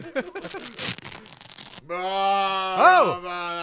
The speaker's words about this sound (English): Yeah, let's just rip off the shirt right now with the cross. Here we go. Rip.